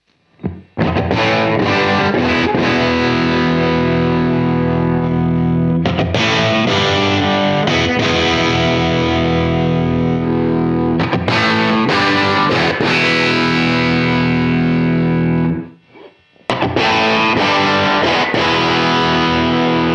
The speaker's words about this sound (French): Tant que je suis ici dans les sons un peu saturés, on va balayer rapidement les différents sons là